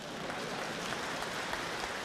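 Steady, dense applause from a theatre audience at a Beijing comedy show, a continuous hiss of many hands at even loudness with no clear gaps.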